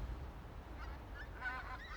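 Departing geese honk faintly on an autumn day in Wester Ross, with a few nasal calls in the second half over steady, rushing background noise.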